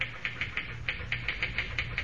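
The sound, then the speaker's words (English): Fast typing on a typewriter as a cable dispatch is written: many sharp, crisp keystrokes in a quick, fairly even rhythm, alone without voices. “Boy, you sure can pound that machine. Think I'll ever be able to type like that?”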